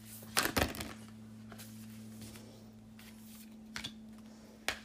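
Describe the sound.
An oracle deck of cards is shuffled in a few short, crisp riffles and flicks over a faint steady hum. The clearest bursts come near the start and end, with no talk.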